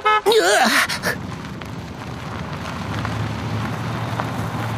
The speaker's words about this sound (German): Dafür haben wir die Buggies. Meinst du diese kleinen Golfkarts da? Genau. Die fahren uns an unser Ziel.